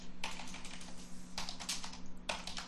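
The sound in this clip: Typing on a computer keyboard to write a note: quick, quiet clusters of keystrokes in a few separate bursts, over a low, steady hum.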